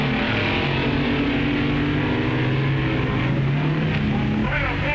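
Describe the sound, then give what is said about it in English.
Engine roar from drag racing cars launching off the line, including the Dragmaster dragster: a dense, loud, steady drone that holds without a break throughout. “The Dragmaster with a lower ET, but Tets getting off the line better. Well, that's drag racing.”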